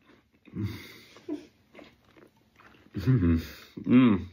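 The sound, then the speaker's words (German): Chewing of oat porridge mixed with a little apple, soft, irregular mouth noises with a few louder bursts, accompanied by voiced murmuring sounds. “Probiere ich mir hier mein tolles Haferporridge mit ein bisschen Apfel. Mal gucken.”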